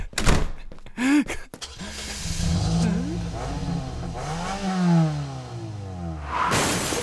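A car starting and backing up at night: a few sharp knocks and a slam open the sequence, followed by an engine revving and a low motor drone that rises and falls as the car reverses.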